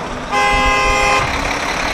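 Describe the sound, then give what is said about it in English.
A vehicle horn honks in a town traffic jam outside a restaurant: one sustained, loud, brassy blast lasting about a second, over continuous traffic rumble that goes on after the horn stops. “That's a traffic jam outside of KP's restaurant. There's too much traffic already in this town.”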